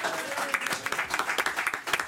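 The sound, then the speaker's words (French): Audience applause in a studio quiz-show game, a dense, steady patter of many hands clapping with sharper bursts scattered throughout, moderately loud and continuing for the whole moment. “On applaudit Air Force One.”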